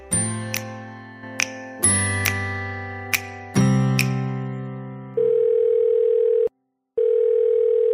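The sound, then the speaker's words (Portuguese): A telephone dial tone sounds as a call is placed. It follows a run of bright chiming notes that each ring out and decay, then holds as a loud, steady hum with one short break before resuming. “vamos ligar para o Zé Rubens e ouvir que histórias ele tem para contar para gente.”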